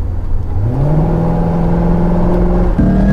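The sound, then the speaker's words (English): A car engine accelerates hard during a merge: a loud, continuous mechanical roar whose pitch climbs steeply, then holds as a steady strained drone with a brief shift near the end. “I'm going to accelerate. Brace yourself.”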